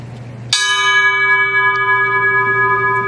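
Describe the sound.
A single bell strike tolled for people lost at sea, a sharp metallic onset that settles into a long, steady ringing tone, sustained to the end over a faint low hum.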